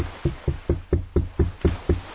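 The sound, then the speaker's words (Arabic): Knocking on a door: eight firm, evenly spaced knocks in a steady rhythm, fairly loud, with no voices. “شوف مين بدق على الباب”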